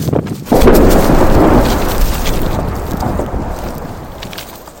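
A massive oil refinery explosion with its shockwave: a sudden, loud, deep boom bursts in and then rolls on as a heavy rumble that slowly dies away over several seconds.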